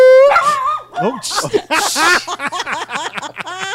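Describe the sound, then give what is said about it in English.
A tiny dog held on someone's chest lets out many piercing, high-pitched yips and whimpering barks. The cries come in a rapid, uneven run, loud and shrill throughout. “She shouldn't talk with a dog on her chest. Yeah. It's just a small dog. Just a tiny, loud, ear piercing.”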